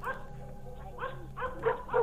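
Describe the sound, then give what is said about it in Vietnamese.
A pack of dogs barks and yips in a few short bursts that come closer together toward the end, moderately faint over a low steady background. “Tiếng chó vẫn sủa không ngừng, thậm chí càng lúc càng dồn dập.”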